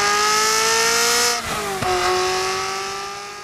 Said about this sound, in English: This, on the other hand, is what a naturally aspirated V8 sounds like.